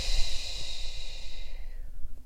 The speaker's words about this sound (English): Inhale through your nose. Exhale long and slow through the mouth.